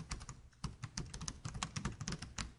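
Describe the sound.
Keys clatter as someone types on a computer keyboard in quick, uneven bursts of soft clicks, quiet and alone.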